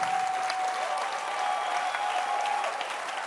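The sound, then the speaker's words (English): A church audience claps hands in sustained applause at a service honouring their pastor, a dense, even patter that holds steady in loudness from start to finish. “Let your hand clap be ascending.”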